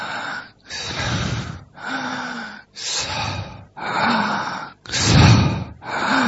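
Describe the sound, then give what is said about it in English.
Heavy, forceful breathing during meditative breath practice, a steady run of many loud, rasping breaths, each a second or less, some carrying a faint voiced tone, separated by very short pauses. “When we breathe, we do kirtan of the Lord in the heart, who is called Hansa. We are on an inhale.”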